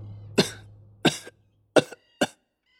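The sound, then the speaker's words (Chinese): Low, short coughs from a sickly-sounding man: four separate dry coughs, evenly spaced and heard alone, with a faint low hum under the first half. “唐枕低低地咳嗽了两声”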